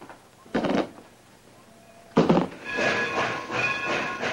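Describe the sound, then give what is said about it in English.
A smoking steam freight engine passes a weedy lot, with two sharp bursts of steam hiss followed by a longer, rougher rush of hissing and rumbling as it goes by. “waits as a smoking freight engine passes by”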